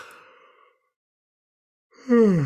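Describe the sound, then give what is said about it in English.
Yawning: after a faint breathy sound and a stretch of silence comes a loud, drawn-out voiced yawn whose pitch slides downward at the end. “And I'm yawning a lot”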